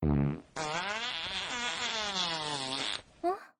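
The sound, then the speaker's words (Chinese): A long, drawn-out flatulent blast from a cartoon fart-cannon attack, buzzing steadily for a few seconds, with a short burst just before it and another just after. “哎，放屁炮。”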